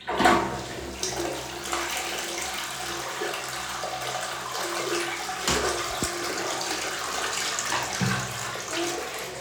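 A toilet flushes, a loud rush of water starting at once and then running steadily for several seconds in a continuous gushing wash.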